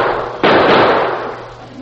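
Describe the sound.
A single gunshot inside a saloon: one sudden sharp bang followed by a noisy tail that slowly fades over about a second and a half.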